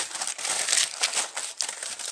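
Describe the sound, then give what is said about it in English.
Aluminium foil crinkles and rustles as it is pressed over a dish, a bright papery crackle in uneven bursts with a short lull partway through. “Okay, got my foil, and I'm gonna put foil over this.”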